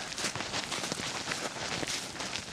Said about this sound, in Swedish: Snart måste jag nog passa. Jag har gått på ett bra tag nu.